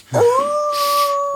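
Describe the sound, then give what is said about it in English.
Dog howling in a kennel: one long, sustained howl that starts with a brief yelp-like onset, then holds a steady, loud wail with no other voices. “What was that? Oh, God, what is that? Well, we are in a dog kennel. I'm assuming it's a dog.”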